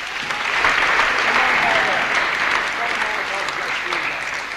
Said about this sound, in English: Give her a hearty clap.